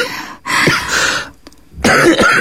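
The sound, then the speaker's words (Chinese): A person coughs from a tight, congested chest, giving harsh, noisy bursts mixed with throat clearing. Two rough spells are separated by a short quiet gap. “我就是胸口堵得慌，光咳嗽了”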